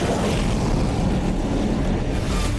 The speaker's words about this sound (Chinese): 歼四五起飞，拦截不明目标。